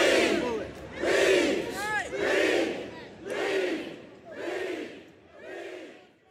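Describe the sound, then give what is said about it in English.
Protesters in Louisville shouting in unison as police fall back, six loud, surging crowd calls spaced about a second apart in a chant-like rhythm, easing slightly toward the end. “The police fall back. Protesters cheer and slowly trickle back into Jefferson Square Park.”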